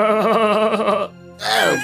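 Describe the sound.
A human voice imitates a chorus of bleating sheep: a long, loud, wavering call with strong vibrato, followed after a short pause by a briefer second call.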